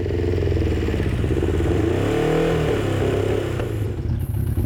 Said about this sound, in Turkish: Şu an jikli açık mı? İki silindirle çalışıyor, belki üç.